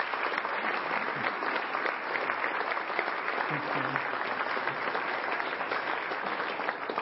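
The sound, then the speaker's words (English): A church audience at First Church gives a round of applause, a continuous, fairly soft wash of many hands clapping that stays even and unbroken from start to finish, with no voices rising above it. “we just want to give you a small token of appreciation and a round of applause.”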